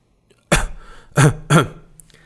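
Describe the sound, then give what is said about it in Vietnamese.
A person coughs lightly into a clenched fist: three short, soft, throat-clearing coughs, with the first standing alone and the next two coming close together. “Chu Tề Lan nắm tay ho nhẹ để cho Lục Bắc kiềm chế một chút.”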